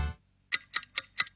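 A clock ticks five times in an even, quick rhythm, each tick a crisp, bright click, preceded by a short, low rumble that fades into silence.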